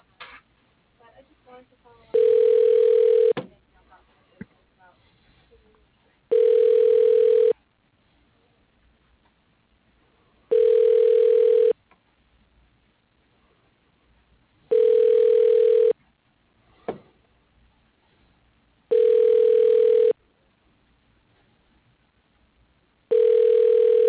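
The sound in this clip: Telephone ringback tone heard while a call is transferred: six evenly spaced, steady buzzing tones, each about a second long, separated by near-silent gaps holding only faint background sounds.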